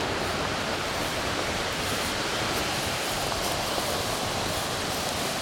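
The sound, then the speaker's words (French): Rushing water from a river with a small waterfall, a steady, loud, unbroken wash with no other sounds. “on longe une rivière qui est bordée par une bande d'arbres majestueux, petite cascade.”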